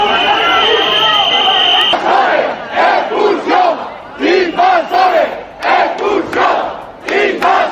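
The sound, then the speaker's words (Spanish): Crowd shouting outside hotel doors in Ceuta, loud repeated shouted phrases rising and falling in a rhythmic, chant-like pattern with short pauses between bursts. “Este es el sonido ante las puertas del hotel al que ayer llegó el ministro de Política Territorial”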